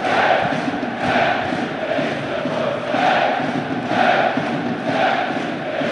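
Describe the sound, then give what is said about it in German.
Football fans chant a mocking taunt at visiting supporters from Münsterland inside the Bielefeld stadium. The loud massed voices rise and fall in regular swells, roughly once a second. “Wer nicht hüpft, der ist ein Preuße. Also unsere Freunde aus Techte werden hier auch ganz liebevoll begrüßt.”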